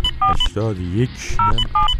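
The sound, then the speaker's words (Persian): Telephone keypad tones as a number is dialed to call a police hotline: a few short dual-pitch beeps and brief high bleeps, with a man talking between them. “بله، بنده الان در حال شماره گیری هستم.”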